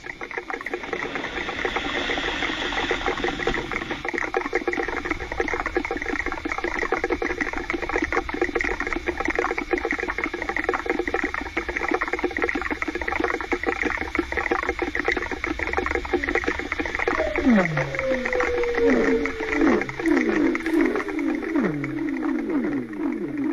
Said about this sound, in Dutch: Je hebt namelijk een geluidsfragment meegenomen van het geluid dat kernfusie produceert.